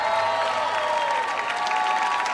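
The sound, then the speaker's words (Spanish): Audience applause for a musical duo after a live performance. Clapping and crowd noise hold at a steady, fairly loud level throughout, without speech. “Fortísimo aplauso para ellas.”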